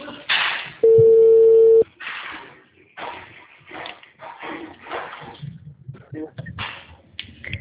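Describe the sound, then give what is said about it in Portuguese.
A single steady electronic telephone tone lasts about a second as a call drops, followed by people talking. “Eu acho que o telefone caiu”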